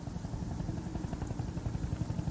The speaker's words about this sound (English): The sniper checks the approaching helicopters.